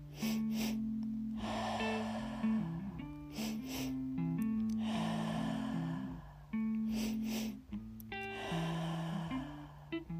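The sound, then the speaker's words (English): Patterned breath-work breathing in a guided session, quick sharp intakes alternating with longer airy exhales in a repeating rhythm, heard over soft, sustained music tones. “Keep going with your triactive breath pattern.”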